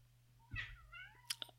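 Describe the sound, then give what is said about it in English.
A cat meows in one drawn-out, wavering cry, then gives two short, sharp squeaks. A steady low hum runs underneath the whole time. “That's my cat. Don't worry about that.”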